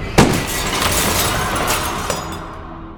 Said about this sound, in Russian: Когда дым от выстрела рассеялся, я увидел разнесенное вдребезги стекло витрины и никого за ним.